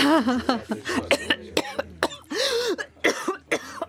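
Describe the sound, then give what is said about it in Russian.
A woman's harsh, unbearable coughing fit that brings up blood. Many rough, strained coughs come in rapid, uneven bursts, mixed with raspy vocal gasps between them. “Нестерпимый кашель продолжался минут пять.”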